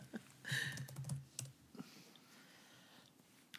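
Typing a search into Google on a computer keyboard: quiet, quick bursts of plastic key clicks, a cluster near the start, then a few scattered taps with pauses between them.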